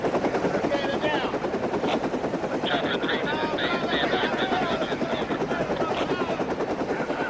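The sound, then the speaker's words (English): A helicopter lands near parked vehicles and people, its loud rotor thrum steady and unbroken for the whole stretch, with a rapid chopping texture running through the wash of engine noise. “The chopper lands near parked vehicles and people.”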